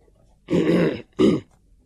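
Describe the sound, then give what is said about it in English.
A man clears his throat in two gruff, raspy bursts: a longer one first, then a shorter one after a brief pause, with silence around them. “cleared his throat”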